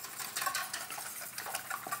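A whisk mixes ingredients in a bowl for a Spanish tortilla, making quiet, rapid scraping and clicking strokes in a steady rhythm with no voices.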